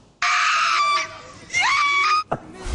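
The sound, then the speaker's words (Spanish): A woman screaming wildly while celebrating a Bayern Munich goal: two long, piercing, high-pitched shrieks with a short pause between them, followed by a brief, sharp vocal burst at the end. “Esos gritos que se escuchan es el alocado festejo de la novia de Kingsley Coman cuando anota el delantero del Bayern Múnich.”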